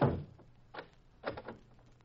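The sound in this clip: A door is shut and locked as a radio drama sound effect: a heavy thunk, then a few sharp clicks of the lock, each separate and brief over a quiet hum.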